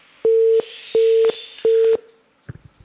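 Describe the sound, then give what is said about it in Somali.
Three even, steady electronic beeps of matching medium pitch, evenly spaced, sound on a telephone line after the caller cuts off the call. A few faint clicks follow. “dhegeystahaasi jarjaraya telefoonka”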